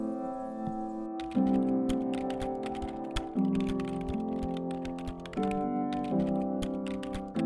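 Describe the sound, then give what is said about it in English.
Many rapid keystrokes of someone typing an email on a keyboard form a busy, uneven clatter, with steady sustained tones of soft background music underneath. “So she decided to write an email to the CEO.”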